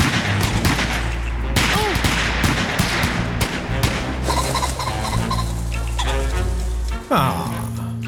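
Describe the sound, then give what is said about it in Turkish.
Gunfire as a man is shot, with sharp bursts cutting through a dense, continuous bed of other sound and sustained tones, loud throughout, with a sudden heavier hit near the end. “Yanılmıyorsam Joe'u vurdum. Öyle oldu. Adam vuruldu.”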